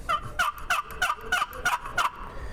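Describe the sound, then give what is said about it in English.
Turkey yelps played on a Hunter Turpin turkey call, a hollow double-note fall call: seven evenly spaced raspy yelps in a steady rhythm, heard alone with no talk. “And so here's a Hunter Turpin call. We believe this to be the last Turpin that Hunter Turpin ever made.”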